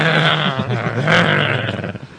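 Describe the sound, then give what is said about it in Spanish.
A human voice imitates a chihuahua's growl, producing a low, rough, throaty snarl held for about two seconds that fades toward the end. “Sí, le gruñe. Sube el labio, se le sube así.”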